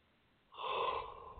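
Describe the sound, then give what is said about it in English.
A single deep breath drawn in, starting after a moment of quiet and lasting about a second as a soft, airy rush that eases off slightly toward the end. “Breathe it in. Deep, deep breaths.”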